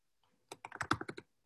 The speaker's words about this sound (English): I'm going to type that in the chat.